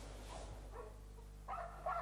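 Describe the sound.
Small dogs, among hundreds kept in cramped, dirty rabbit cages at a family house, bark and yelp faintly over a steady low hum, with a few short yips standing out near the end.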